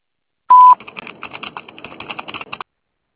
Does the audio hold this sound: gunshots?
no